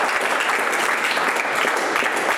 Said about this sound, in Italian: Un applauso